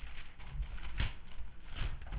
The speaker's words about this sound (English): It's the sound of Bible pages turning when a congregation of believers is digging into the Bible